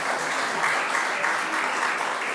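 An audience claps continuously, a dense, even wash of many hands applauding at moderate loudness throughout, with no talking over it.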